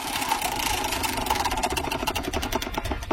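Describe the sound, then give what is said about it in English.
Rapid clicking of a prize wheel spinning during a game, a dense clatter of ticks that runs through the whole clip at steady strength over a busy background. “Let's spin the wheel.”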